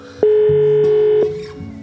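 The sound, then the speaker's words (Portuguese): A telephone ringback tone sounds while a call waits for an answer, heard as one long, steady, low electronic tone lasting about a second before easing off. “Tá chamando, vamos lá. Putz, será que não vai atender?”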